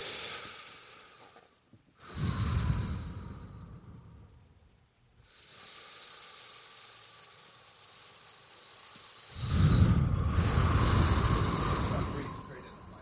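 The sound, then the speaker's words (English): Deep breaths taken together by a group, heard as two long, noisy breathing swells. They are separated by a quieter stretch, with the second breath the strongest. “I bet you if we take four deep breaths together, how just of a better place we'll be in together.”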